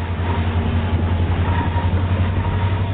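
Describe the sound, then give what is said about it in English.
Loud, continuous rumble of an EMD SD-60 diesel freight train heading east over the Sierra Nevada: a steady low drone with a strong low hum and broad rushing noise, with no talk. “See how train consists are constructed in the famed Roseville Rail Yard, then climb aboard an EMD SD-60 freight heading east over the mighty Sierra Nevada.”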